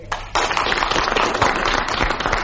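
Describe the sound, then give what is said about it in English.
A studio audience applauds to vote on a panel game challenge. Dense, loud clapping starts abruptly after a brief quiet moment and continues steadily to the end, with no speech over it. “Do you think that Clement Freud's challenge of landing was justified? If so, will you please clap?”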